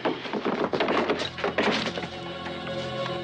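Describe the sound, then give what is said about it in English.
A body thrown backwards against a door gives a heavy, dull thunk, with several loud thumping impacts packed into the first second and a half before the sound settles into a steady, lower-level tail. “He throws Yin backwards against the door, then kicks him through it.”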